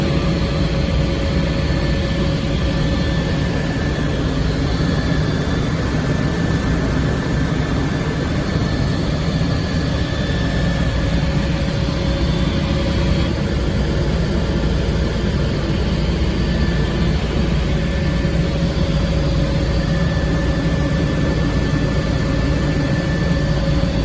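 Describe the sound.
Small aircraft engine droning continuously in flight, a loud, even, unbroken hum with a steady low roar and a faint high whine, with no talk over it.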